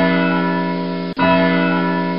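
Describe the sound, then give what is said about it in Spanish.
Clock chimes ring out as a sustained, resonant bell tone with rich steady overtones. The tone is briefly cut off near the middle, then rings on at the same level. “el reloj comenzó a avanzar con rapidez, dando las campanas y haciendo pasar un día entero en cuestión de minutos.”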